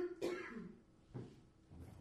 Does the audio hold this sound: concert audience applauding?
no